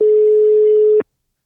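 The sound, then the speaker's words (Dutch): A telephone call tone sounds as someone is rung, a single steady, fairly low electronic tone lasting about a second before cutting off abruptly into silence. “Misschien moeten we Wim zelf gewoon even bellen.”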